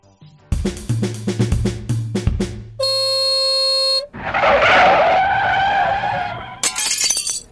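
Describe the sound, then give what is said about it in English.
A car crashes and skids through an airport departure lounge and out a window: clattering impacts, then a steady horn-like tone, a long loud roaring skid, and a sharp burst like shattering glass at the end. “If you're wondering what that noise was, a lady has just driven through the departure lounge and out a window.”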